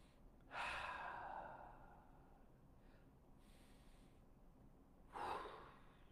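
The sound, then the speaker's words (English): Deep belly breaths taken during a guided breathing exercise: two faint, airy breaths that swell and fade slowly, with quiet stillness between them and no talk. “Let's just breathe. Let's take three belly breaths together.”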